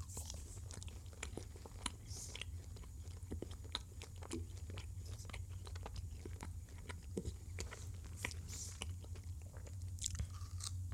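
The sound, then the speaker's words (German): Faint chewing of Haribo gummy sweets: many small, soft mouth clicks and squelches in an irregular rhythm, over a steady low hum. “Na, die Haribo-Geschichte probieren.”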